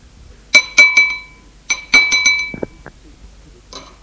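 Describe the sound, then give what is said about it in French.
A spoon taps on a plate in bright ringing clinks: three quick taps, a short pause, then four more, with the ringing fading between strikes and no talk. “Le père frappe avec sa cuillère sur son assiette.”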